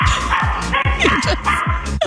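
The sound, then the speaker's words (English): Dog barking in rapid, continuous, loud yaps that repeat steadily with no gaps, with a faint whimpering edge between some barks. “There's a dog barking.”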